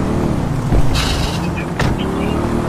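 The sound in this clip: Car engine in a police patrol video game during a traffic stop: a steady, loud, low motor hum runs throughout, with a couple of brief, brighter bursts over it.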